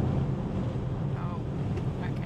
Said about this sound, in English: As we near the fourth anniversary of Sheree's disappearance, we find ourselves driving down an icy highway. Yeah, it's pretty slippery today.